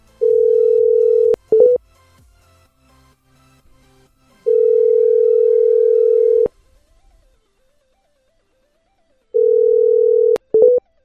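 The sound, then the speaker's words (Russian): Telephone ringback tone after dialing a number: a steady single-pitched beep sounding three times with long silent gaps, the middle tone notably longer, along with a few short clicks and blips. “я по ним сейчас набираю. 44-4-25 набираю.”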